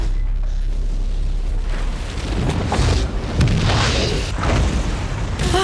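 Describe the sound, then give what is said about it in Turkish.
A big explosion on an oil rig: a continuous, loud, deep roaring rumble with repeated heavier booms and crackling bursts that fills the whole stretch, with no voices. “Büyük bir patlama oldu. Yardımınız gerekiyor.”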